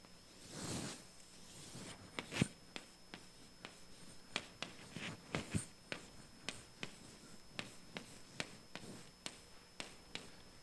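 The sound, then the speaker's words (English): A circle being drawn by hand: a soft scraping stroke of writing, followed by many sharp, quick taps and clicks in an uneven rhythm, with no talk. “I'm going to draw another circle.”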